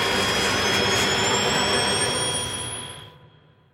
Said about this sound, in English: as the plane is set to make impact with the mountainside, the pilot's trying to gain altitude, the whine of the engines is rising,